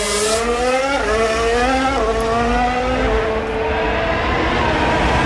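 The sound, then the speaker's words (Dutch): Audi Formula 1 race car accelerating out of a chicane, a loud, high engine whine climbing in pitch through three quick upshifts and holding steady, with no talk over it. “Bortoletto in de Audi. Oh, bij dat insturen onstabiel, hè? En ook bij het uitaccelereren van de Velchikane.”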